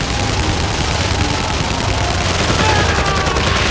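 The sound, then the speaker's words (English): Submachine guns and an M16 rifle fire in a firefight with a line of soldiers, a dense, loud, continuous barrage of rapid shots with no clear gaps between them. “Rourke's team opened fire. Paul used his submachine gun alongside Rourke.”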